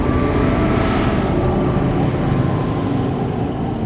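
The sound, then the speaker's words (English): A steady, loud droning roar comes from an arrowhead-shaped aircraft flying overhead in The Hunger Games: Mockingjay. The drone is broad and even and eases slightly toward the end. “An aircraft flies above. Katniss turns to see it.”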